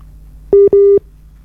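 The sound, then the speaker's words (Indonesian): Telephone tone signalling an incoming call on the line: two steady mid-pitched electronic beeps, a short one and then a longer one, alone. “Sebentar ada telepon yang masuk, kita terima dulu dengan siapa di mana.”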